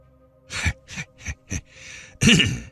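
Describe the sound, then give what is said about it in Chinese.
Someone clears their throat in several short, rough bursts, followed by a breathy hiss and then a longer voiced rasp. “啊，清一清我的喉咙，这事我一直琢磨到了现在，而这咳一咳便是最后的结果。”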